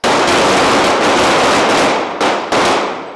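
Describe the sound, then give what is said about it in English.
Dense, loud gunfire from a couple of dozen KCPD police officers in a simulated gunfight at the department's firing range in Kansas City North, many shots merging into a continuous crackle with two brief dips near the end. “It's a simulated gunfight. They empty their clips, reload, and fire again.”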